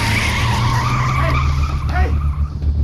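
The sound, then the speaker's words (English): A van's tires squeal as it peels out: a loud, continuous screech over a low engine rumble that lasts nearly three seconds. “As the trespasser peeled out”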